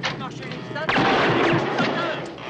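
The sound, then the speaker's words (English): A stick grenade blows up inside a ship's large funnel and erupts into a fireball, with a sudden loud blast after a short quieter lead-in, then a sustained roar that slowly fades. “One frogman then throws a stick grenade into a large funnel. The men run as a fireball erupts.”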